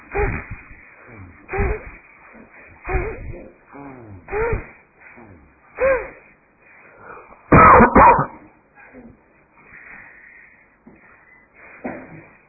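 Bhastrika breathing during a yoga class, a series of sharp, forceful breath bursts repeated at a steady pace, with a louder cluster partway through.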